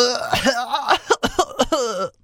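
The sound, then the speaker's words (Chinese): A voice acts out a cartoon shark's sore-throated coughing fit: a strained, voiced rasp and throat clearing, then a quick run of short, harsh coughs before it trails off. “美人鱼公主看着咳个不停的坏蛋大鲨鱼”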